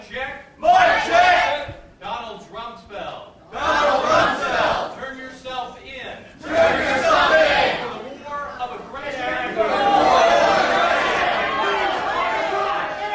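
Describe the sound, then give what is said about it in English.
Protesters shout and interrupt among an audience of a couple of hundred people at a talk by a former defense secretary. Several loud, overlapping voices rise and fall in bursts, with crowd chatter underneath. “At this point, before Secretary Rumsfeld answered, he was interrupted by protesters among the audience of a couple of hundred people.”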